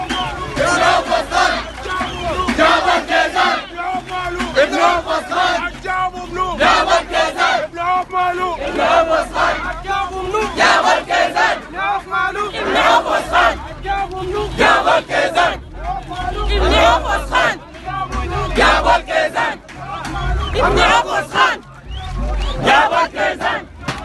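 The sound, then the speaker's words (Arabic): Displaced people from camps in Darfur chant together, a large crowd of voices repeating loud rhythmic phrases. The chanting surges and dips in steady waves throughout. “وكانت هتاف نازحي معسكرات ولاية دارفور:”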